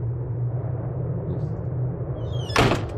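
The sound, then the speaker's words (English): A door is pulled shut on a cold day: a single sharp thud near the end, after a steady, low background rumble. “I'm going to close the door. It's just getting cold here.”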